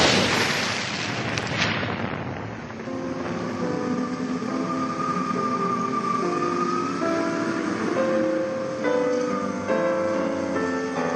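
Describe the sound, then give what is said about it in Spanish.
A huge explosion in a radio drama opens with a broad roaring blast that decays over about two seconds into a sustained, ringing drone of shifting tones. “Paralizados, miran al cielo y observan una enorme explosión.”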